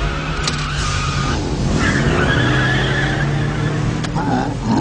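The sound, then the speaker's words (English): A 200-horsepower vehicle engine strains in reverse while pulling against another vehicle. A continuous loud roar runs throughout, with high tire squeals skidding over it. “He's pulling against me. 200 horsepower. I put it in reverse.”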